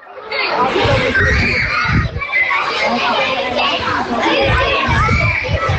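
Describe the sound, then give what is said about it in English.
Children laughing and playing in a primary school playground in the seaside town of Greystones, Ireland. Overlapping shrill voices, chatter and shouts form a loud, continuous bustle throughout. “The sound you can hear is children laughing and playing in the playground at St Patrick's National School.”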